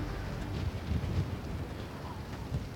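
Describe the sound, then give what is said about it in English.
Strong wind at high altitude near a volcanic crater, with cold, thin air: a low, steady buffeting rumble with small gusts swelling and easing. “There's no air, but the wind's so strong. And it's pretty cold.”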